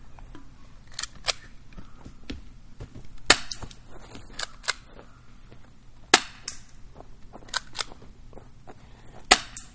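Airsoft gun shots: many sharp, snappy cracks fired at irregular intervals, some noticeably louder than others, with a low steady hum underneath between shots.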